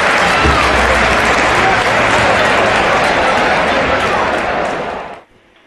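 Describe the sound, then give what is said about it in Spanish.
Studio applause and cheering from a crowd as a jingle, loud and dense, steady for about five seconds before cutting off abruptly. “Esos aplausos eran para ti, ¿eh? Esos eran para ti.”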